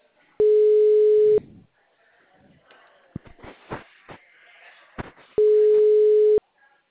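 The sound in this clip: Ringback tone of an unanswered phone call: two steady, mid-pitched one-second tones about five seconds apart, with soft rustling and handling noises between them.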